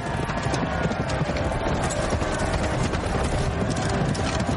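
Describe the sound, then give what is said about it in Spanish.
Hooves of horses galloping as knights charge at each other with lances couched during a jousting tournament. The drumming is loud, dense and unbroken, with no voices. “Ambos cabalgan de nuevo lanza en ristre hacia el contrincante.”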